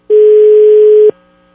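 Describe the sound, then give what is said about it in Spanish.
Telephone ringback tone on an unanswered call: one steady, loud, mid-pitched electronic tone holds for about a second and then cuts off, leaving quiet. “Vamos a ver si nos contesta Luis. Pues, al parecer Luis está ocupado, ¿eh?”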